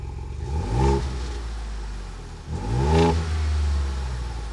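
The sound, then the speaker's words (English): A truck engine revs through a new Gen 6 Bold Performance exhaust, giving two deep, throaty surges that rise and fall over a steady low idle rumble. “Oh, I know that sound. Someone's out there starting my truck up. That's the sound of a giveaway. Well, yeah, that's my new exhaust, my Gen 6”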